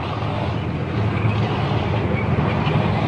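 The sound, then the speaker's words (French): Russian tanks roll slowly past about thirty metres away near the Danube, giving a continuous low mechanical rumble of engines and tracks that holds steady and grows slightly heavier partway through, with no voices. “le Danube, voici les chars russes qui passent. Ils sont environ à une trentaine de mètres de moi.”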